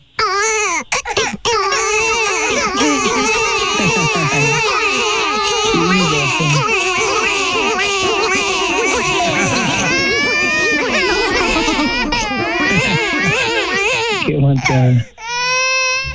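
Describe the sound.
Many children crying and wailing loudly together, high, strained sobbing voices overlapping continuously, with a short dip near the end before the crying resumes.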